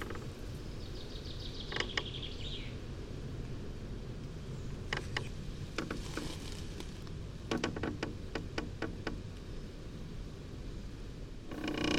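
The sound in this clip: Chestnut tree creaking in a chestnut grove, faint, irregular creaks in a few clusters over a soft steady background, with a short high chirping sound early on.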